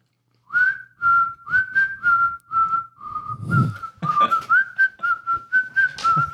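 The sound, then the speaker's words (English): A person whistles a quick signal tune of many short, mostly level notes in a steady rhythm, with a few sliding pitches and a brief noisy burst midway, alone without speech. “I go to the back door and Do the whistle.”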